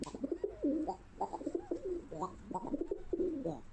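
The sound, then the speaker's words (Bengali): Pigeons coo in a steady run of soft, low, rolling calls, one burbling phrase following another with no break throughout. “কবুতরেরাও বলে উঠল, আমাদের বাক বাকুম শব্দ শুনতে যেরকমই লাগুক আমাদের জন্য সেটাই ভালো, আমাদের বাক বাকুম করতেই ভালোবাসি।”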